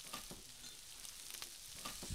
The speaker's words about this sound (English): And what we're going to do is fry the pork up until it's a little bit goldenish.